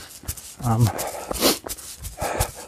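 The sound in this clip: A dog gives a short, tonal whine-like bark, followed by a few softer noises, as a person speaks German nearby.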